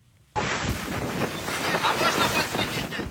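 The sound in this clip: Stormy Black Sea waves and wind surge around a damaged ship in distress at night: a dense roar begins suddenly, then continues as a loud rushing swell with no voices.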